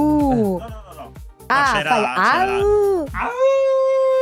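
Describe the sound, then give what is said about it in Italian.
A person's voice imitates a wolf or husky howl in several drawn-out, tonal calls that rise and fall in pitch, with brief gaps between them. “Ma questo è un ululato di un lupo o di un husky? Perché è diverso.”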